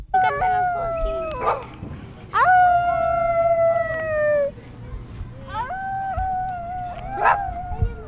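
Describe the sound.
Children imitate howling, their voices forming a few drawn-out, wavering howls with overlapping tones, each swelling and fading with gaps between them.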